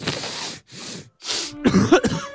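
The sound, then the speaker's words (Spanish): Coughing from a cold: three harsh, breathy coughs in quick succession, then a longer, voiced, throaty cough with a rough hoarse edge. “Este resfriado no me deja dormir.”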